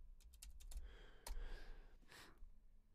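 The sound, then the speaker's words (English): Computer keyboard typing: a few quick, faint key taps, then a single sharper, louder click, followed by softer keystrokes against low background noise. “If you have any, I'm going to type it out.”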